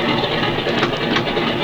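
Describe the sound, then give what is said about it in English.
Airplane engine of a small plane still running after landing at a ranch, before the switches are cut: a steady, loud, rough droning roar that holds throughout without dropping away. “Well, Jim, that engine's run long enough. You better cut your switches.”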